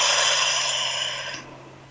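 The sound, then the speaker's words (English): One deep breath during a guided breathing moment, heard as a steady, airy rush lasting over a second before tapering into quiet, with a low constant hum underneath. “So let's take a breath as we connect in.”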